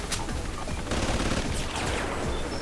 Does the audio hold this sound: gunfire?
yes